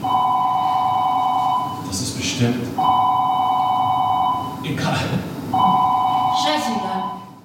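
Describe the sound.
A telephone rings in three long electronic bursts, each lasting nearly two seconds with short pauses between them. The ringing is a steady, buzzing tone that repeats at an even pace.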